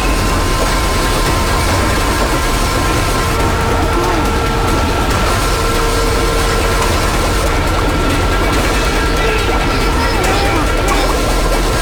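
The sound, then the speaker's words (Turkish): A pump running again after restarting, giving a steady, loud mechanical drone with a tonal whine layered over rumbling noise, continuous for the whole stretch. “Bomba tekrar çalıştı.”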